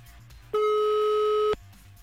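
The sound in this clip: A telephone ringing unanswered, heard from the caller's end: a single steady ringback tone lasting about one second, loud against a low background, with no pickup.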